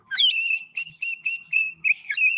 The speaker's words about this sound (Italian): Poi abbiamo un altro tipo di fischietto, che è il fischietto ad acqua, un'evoluzione del cuco,